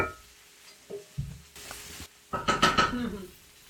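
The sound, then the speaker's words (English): A spiced mixture sizzles in a pan after several minutes of cooking, with intermittent stirring and scraping. A louder burst of frying and scraping comes near the end, and no one speaks. “I'm about to just sort of let this mixture kind of sit. I feel like we've been cooking it for 3 to 4 minutes.”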